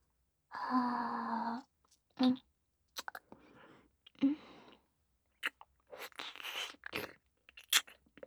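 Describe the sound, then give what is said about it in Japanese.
Chewing and eating with close mouth sounds: a breathy sigh, then a few soft, wet clicks and short bursts of chewing separated by brief pauses, all quiet. “じゃあ、食べます。”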